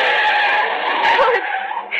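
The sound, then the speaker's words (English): A car swerving across the center line and skidding past pedestrians gives off a sustained high tire squeal that holds steady for about two seconds before cutting off. “The driver swerved way across the center line as though he were trying to run us down. Then he kept right on going.”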